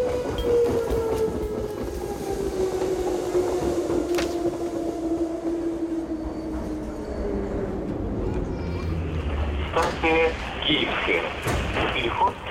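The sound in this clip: A train carriage rolls along the rails with a steady, loud rumble and clatter, a long tone gliding slowly downward, and sharper metallic squeals near the end.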